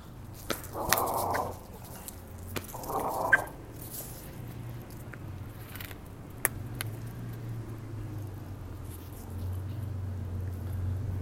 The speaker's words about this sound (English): my dog is trying to engage a pit bull, but and the leash that we're on is his worst leash, so it's a challenge to keep him right next to me.